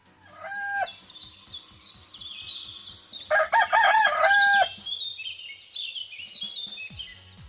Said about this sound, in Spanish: están escuchando por ahí un gallo. Aparece en una canción muy jocosa, muy divertida